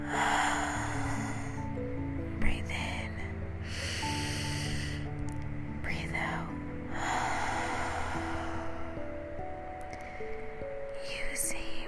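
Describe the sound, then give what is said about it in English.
Slow, deep breaths in and out drift over soft, sustained music tones. A few breathy inhales and exhales rise briefly above the steady background. “Come on, let's do it again. Breathe in. Breathe out.”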